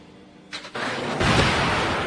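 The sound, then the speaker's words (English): A missile firing sound effect: a short burst of rushing noise, then a loud, broad roar that surges up and holds steady to the end. “Firing missile!”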